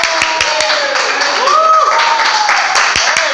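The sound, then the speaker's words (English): Audience applause for a guest: dense, continuous clapping that holds a steady, fairly loud level throughout, with a few sharper individual claps standing out. “Everybody, put your hands together for Leroy Auberg. Yay!”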